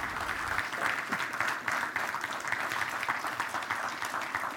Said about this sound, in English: And what I'd like you to do now is put your hands together